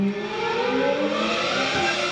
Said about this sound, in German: Augen schließen und sich wegträumen in einen 1995er Ferrari der Formel 1. Der hört sich genau so an.